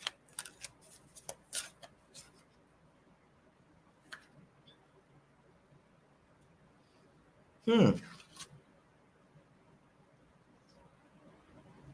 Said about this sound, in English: Let me pull a card for him.